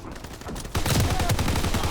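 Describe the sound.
Loud gunfire in a shooter video game, where a team has switched back to a sniper rifle; rapid overlapping shots grow denser and louder after a quieter opening and continue without pause.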